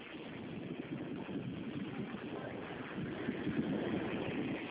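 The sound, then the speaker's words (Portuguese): Noisy street traffic outside: a continuous, rough, engine-like roar with a steady low drone and no distinct separate events, swelling slightly toward the end. “eu estou na rua, está um barulhão, né?”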